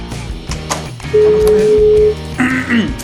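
A telephone call being dialled: a steady, low electronic tone of about a second, followed by a few short, brighter beeps, all over a busy, rhythmic background.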